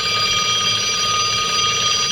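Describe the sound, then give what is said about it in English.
Telephone ringing in a live radio studio: a steady, continuous high electronic trill that holds at an even loudness for the whole stretch, with no talking over it. “the phone is ringing in here”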